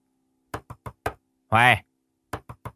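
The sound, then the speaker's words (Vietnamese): A woman pounds on the closed door of a room at the back of a house, knocking four times in quick succession, then a brief raised voice, then three more firm knocks. “Bà Tào đập cửa vừa kêu to lên.”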